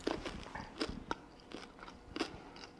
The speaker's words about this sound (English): So I have this green candy here, and I taste it.